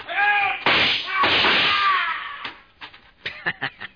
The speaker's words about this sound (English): 3 shots. Keep it up and there'll be a shortage of 38s.